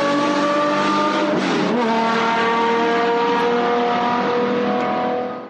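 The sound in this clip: A 1970 Porsche 917 race car with a 5.4-litre, 580-horsepower engine runs at speed. Its engine gives a loud, continuous high-revving roar with one brief dip in pitch, then holds steady before fading slightly at the end.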